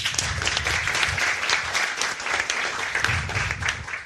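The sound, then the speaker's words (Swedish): Warm audience applause, a few seconds of dense, continuous clapping that holds steady and then tapers off at the very end. “Gott folk, ge en varm applåd till Elinor Svensson.”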